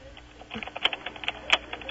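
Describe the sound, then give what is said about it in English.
Fingers type on a computer keyboard in a quick, uneven burst of many light clacks, with a couple of sharper, louder taps standing out. No voices are heard. “Type everything we're saying right now. Like, type that too.”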